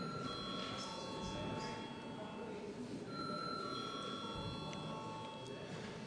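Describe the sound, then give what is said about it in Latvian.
Chairman's bell rung in a parliament session: a faint, steady ringing tone that holds through the whole span over a low murmur of voices. “Lūdzu zvanu.”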